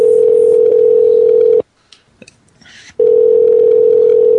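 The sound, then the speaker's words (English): Telephone dial tone humming loud and steady while a hotel is being called, cut off by a short gap with faint clicks, then resuming unchanged. “I'll do the dialing if you want. Probably within 5 or 6 rooms, you'll get somebody, and they'll be mad.”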